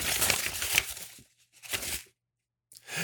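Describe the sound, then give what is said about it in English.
A paper envelope is grabbed and torn open, giving crisp rustling and tearing in a few separate bursts with short pauses between them and no voices. “Let me grab the envelope.”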